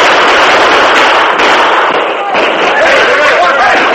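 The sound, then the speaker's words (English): In a radio drama shootout, soldiers fire their carbines at outlaws on a hillside. Loud, crackling volleys of many overlapping shots pile up, with shouting voices mixed in. “The alert soldiers responded quickly, firing their hard-hitting carbines at the flashes of the outlaws' guns.”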